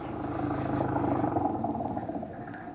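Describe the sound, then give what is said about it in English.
An old flivver car engine runs with a low, steady rumble and a faint clattering edge, fairly quiet throughout. “Hop in. It was an old flivver.”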